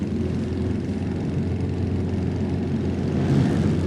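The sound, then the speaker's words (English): Engine of a Honda 500 RC166 racing motorcycle, a loud, steady droning roar that swells slightly near the end. “26 is Jeff Smith on his Honda 500, the RC166 version of that. Let's have a listen.”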